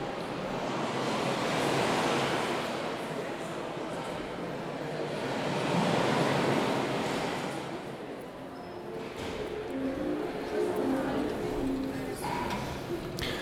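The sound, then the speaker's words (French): Sea waves from a gallery installation in which giant screens show people seeing the sea for the first time, a broad rushing surf that swells and recedes in slow surges, with faint murmuring in the background. “Et on entend la mer.”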